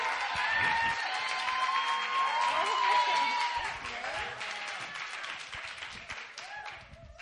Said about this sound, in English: What's happening? I hear this chatter.